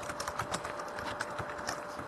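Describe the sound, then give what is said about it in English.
Soft keystrokes as a password is typed on a computer keyboard, a quick, slightly irregular run of several faint clicks over steady background hiss. “Okay, and I'm going to type in my password.”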